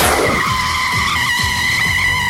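Car braking hard with its tires skidding: a loud, sustained, steady high screech of tire squeal that runs unbroken through the whole clip.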